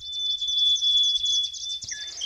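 Recorded Australian bird song plays as a continuous, high-pitched run of fluttering chirps and trills over a thin steady whistle, with a short lower whistle near the end and no talk.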